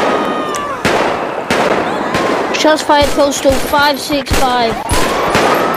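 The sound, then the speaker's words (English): Gunshots ring out in a police-themed video game: many sharp cracks in irregular rapid bursts over a dense, steady background, with talk mixed in. “Oh, shots fired. Shots fired”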